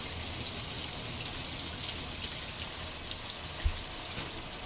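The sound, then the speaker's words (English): Running water rinses exfoliating gloves, a steady, fairly faint hissing splash of flowing water that continues evenly throughout without talk. “And then I'm just going to wash off the gloves. And as I wash off the gloves, I rinse off.”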